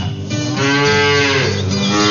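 Dairy cow mooing at morning milking time on a cold, rainy farm morning: one long, loud, low moo that holds steady through nearly the whole clip, alone.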